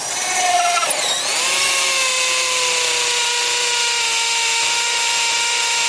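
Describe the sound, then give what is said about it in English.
A power drill whines loudly as a sound effect for drilling into a human skull. After a short rough burst at the start, it settles into a steady, sustained high-pitched whine. “Dahmer drugged him, but once Dahmer drugged him, he drilled a hole in Konerak's head.”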